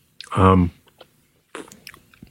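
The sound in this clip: Chewing on home-baked chocolate cookies with white chocolate chips: a short, loud voiced hum comes first, then faint isolated clicks and a burst of moist, crunchy chewing noises after a brief pause.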